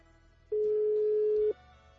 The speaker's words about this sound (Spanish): Híjole, carnal, te estamos marcando, pero no. Pues no toma la llamada.